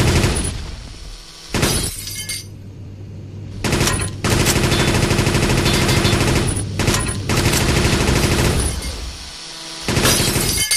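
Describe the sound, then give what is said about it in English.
Rapid gunfire from a speed machine gun weapon in a level 9 ship-shooting video game, loud and dense, coming in several long sustained bursts separated by short breaks over a low steady tone. “Missile was supplied. Machine gun. Speed machine gun.”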